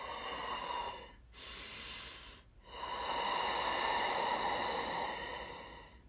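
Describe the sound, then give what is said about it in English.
Airy, hissing ujjayi breathing drawn through a constricted throat with the mouth closed, giving an ocean-like rush. Three long, steady breaths are heard alone, with the middle one shorter and brighter and the last the longest. “Ujjayi breath, also known as that ocean sounding breath. You just take your tongue, block off the back of your throat”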